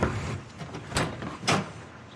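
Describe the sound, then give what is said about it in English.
Knocking on the front door of a small house: a few separate raps, unevenly spaced, over a steady hissing background, with no voices. “She knocks on the door.”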